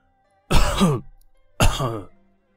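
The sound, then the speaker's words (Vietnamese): An aging man gives two light coughs, each short and hoarse with a throaty rasp, separated by a brief pause. “Thành Vương ho nhẹ hai tiếng, khẽ khẽ lắc đầu.”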